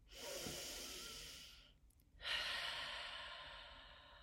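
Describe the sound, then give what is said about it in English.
A group inhales together at the welcome of a gathering. There are two soft, long breaths, the first fading out before a brief pause and the second, fuller one swelling in. “And as we all take an inhale together,”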